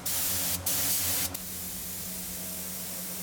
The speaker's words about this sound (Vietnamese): Ngày nay, nhiều cơ sở đã ứng dụng kỹ thuật hiện đại vào quy trình phun sơn. Chỉ với chiếc máy phun sơn này, một ngày có thể hoàn thiện hàng trăm sản phẩm.